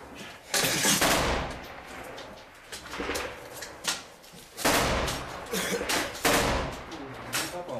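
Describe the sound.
An automatic grenade launcher (AGS) fires in a video game, giving heavy, booming bursts of gunfire that come in uneven clusters, with rumbling noise between the shots.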